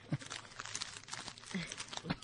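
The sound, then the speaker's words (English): Plastic bag of M&M's candies with a hole in it being squeezed and crushed; fairly faint crinkling with a few sharper crunching bursts scattered through. “And now that you just smushed all the M&Ms.”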